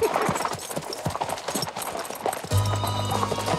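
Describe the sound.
Horses ridden into a frontier town clip-clop with a quick, uneven run of hoof knocks. In the last second a steady low hum takes over.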